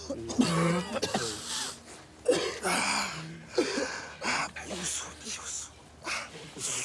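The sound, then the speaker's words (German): Several harsh, irregular bursts of coughing and throat clearing, loud and spaced unevenly, with voiced sounds between them. “Husten ist so.”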